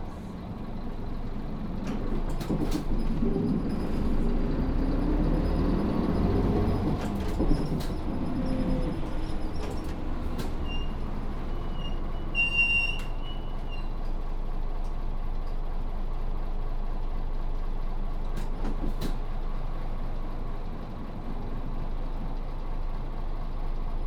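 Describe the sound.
Low, steady engine rumble of a departing vehicle, continuous and fairly loud from start to end, with a few faint high clicks scattered over it.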